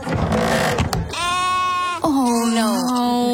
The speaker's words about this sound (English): Quiero una oveja pequeñita. ¿Una oveja pequeñita? Sí. Bueno, pues tengo como 20.